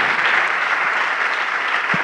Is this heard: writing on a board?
no